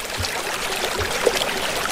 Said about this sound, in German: Und so, wenn man einen Fluss zulässt, dann kühlt einem das gefühlt ein paar wenige Grad oben runter. Darum geniessen wir den Fluss im Hintergrund.